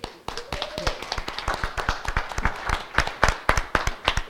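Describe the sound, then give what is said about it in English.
An audience at a church gathering claps in appreciation, with many distinct, crisp handclaps in a brisk, uneven rhythm, moderately loud and continuing throughout. “Let's give him a hand of appreciation.”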